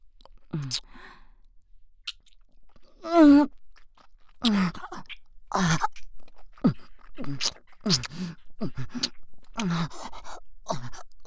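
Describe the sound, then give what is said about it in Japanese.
Wet ear licking, with irregular slurping and clicking mouth sounds up close, mixed with breathy sighs and soft moaning vocal tones between the bursts. “耳なめさせていただきます。”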